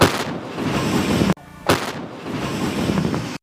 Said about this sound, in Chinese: 炮兵分队迅速启封弹药，调整诸元，首先对敌暴露步兵进行火力覆盖。